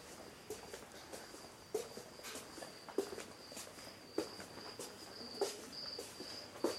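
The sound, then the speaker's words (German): Crickets in tanks at an insect exhibit chirp in a faint, steady, high trill, with soft footsteps tapping now and then underneath. “Und die Crickets. Wo sind hier Crickets? Man denkt immer, das kommt vom Tonband, aber das ist wahrscheinlich wirklich echt.”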